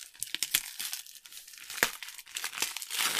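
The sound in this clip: Crinkling and tearing of a lovingly wrapped gift package being opened in a Christmas mood: many irregular, sharp rustles and rips of wrapping, some louder bursts, with no talking.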